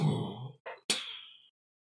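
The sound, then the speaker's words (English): A voice imitates a deep exhalation coming from within a jungle: a long breathy rush, a short pause, a brief puff, then a sharper hissing breath that trails off, heard alone. “you hear a deep exhalation from somewhere within the jungle”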